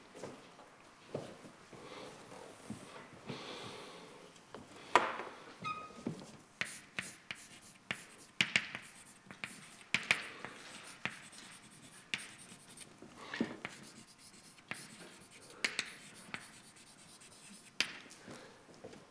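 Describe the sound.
Writing on a board during a physics lecture: many quick scratchy strokes and light taps come in irregular bursts with short pauses, fairly faint and with no talk.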